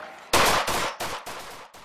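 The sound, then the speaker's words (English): A police officer firing repeatedly at a man in a backyard, heard as a rapid series of loud, sharp gunshots. Each shot has a short ringing tail that runs into the next. “The officer shot at him 20 times, killing the 22-year-old in his grandparents' backyard.”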